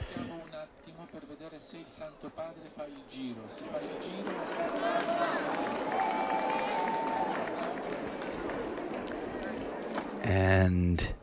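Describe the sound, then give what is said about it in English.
Crowd at Castel Gandolfo chanting in unison for the Pope, a mass of voices that swells into a loud, sustained, rhythmic chant lasting several seconds. “And a coordinated chant there of Long Live the Pope.”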